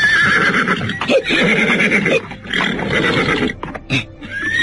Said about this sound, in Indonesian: tiba-tiba saja kuda itu meringkik ketakutan sambil menghentakkan kedua kaki depannya ke atas.